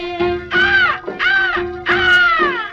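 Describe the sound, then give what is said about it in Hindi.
Crows caw in three loud, harsh calls spaced close together, some sliding downward in pitch, over a steady low tone. “देख तो हर साथी जोड़ी कौवे शोर मचाए, फिर कौवे शोर मचाए।”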